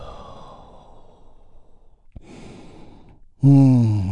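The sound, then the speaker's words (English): A deep breath released in a long, soft, airy exhale during a guided healing-breath exercise, followed by a voice starting up loudly at the end. “we will lead the way by taking a big, deep healing breath. All together, here we go. And release.”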